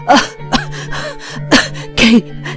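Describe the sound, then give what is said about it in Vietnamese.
A man coughs and gasps for breath after a cloth gag is yanked from his mouth: a few sharp, loud hacking bursts mixed with voiced, strained gasps, with brief pauses between the fits. “ho sặc sụa và thở hổn hển một hồi trước khi ông có thể nói được”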